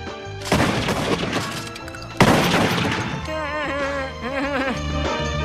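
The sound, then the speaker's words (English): Two gunshots in a comedy sketch, about two seconds apart, each a sharp loud crack with a decaying tail, with tonal sound running underneath and continuing after the shots. “Okay, turn around. We have to shoot you so you know what it feels like to be shot.”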